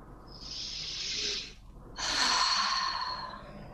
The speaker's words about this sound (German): und dann immer einen tiefen Atemzug